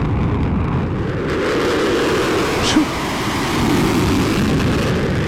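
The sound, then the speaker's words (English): Fighter jet roaring with its afterburners on: a dense, continuous low rumble with a broad hiss above it, staying fairly even in loudness throughout. “it looks to be like a fighter jet that's got his afterburners on. It shows him blowing up something blowing up.”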